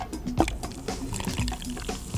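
A drink is poured into a glass as a gurgling, bubbly stream with small plinks and drips, fairly faint and lasting about two seconds.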